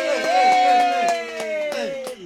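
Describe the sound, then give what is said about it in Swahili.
Audience applause for a question at a talk on mid-sized business: rhythmic claps strike in a steady pulse beneath a loud, sustained voice that holds a drawn-out tone across the whole stretch. “Tumpigie makofi kwa swali hili.”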